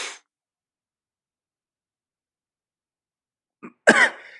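A single sharp cough, caused by something like a hair caught in the throat, breaks a long silence just after a brief, faint throat sound.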